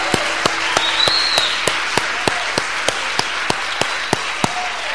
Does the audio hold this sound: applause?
yes